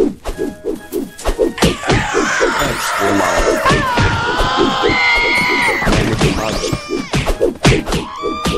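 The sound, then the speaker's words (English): Punch impacts from a Megaton Punch attack in a video game: heavy thuds and whacks with sweeping tonal game effects over a steady rhythmic backing beat. “the Megaton Punch means that you can punch really, really far. Like that.”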